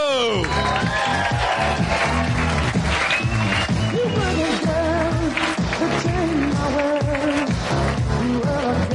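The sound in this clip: An audience gives loud, sustained applause with cheers and whoops as the performers come on stage, a dense, steady roar of clapping that stays strong for the whole stretch.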